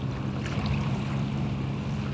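A fishing boat motors out of a harbour with a low, steady engine rumble and a soft wash of water and wind over it.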